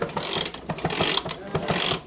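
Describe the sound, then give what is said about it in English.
Ratchet clicks of a lift being cranked up in a scooter repair shop, raising a vintage European scooter that won't start for a spark plug change. A steady run of moderately loud metallic clicks. “cranking up a lift so he can change the spark plug on a scooter that won't start”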